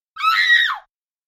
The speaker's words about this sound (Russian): Спровоцировали меня на визг звонким светло-эльфийским голоском.